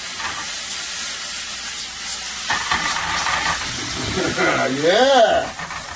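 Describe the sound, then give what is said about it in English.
Food sizzles and hisses in a pan as the sauce for gnocchi with spicy sausage and kale is built, a steady, fairly loud frying hiss that carries through the whole stretch. “Be careful, that may splatter just a little bit. Now we cook it.”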